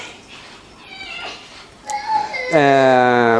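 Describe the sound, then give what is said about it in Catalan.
Children cry in loud, tonal wails that start faint and grow stronger, ending in a sustained loud cry. “Ui. Bueno, no passa res. Que plorar de xiquets.”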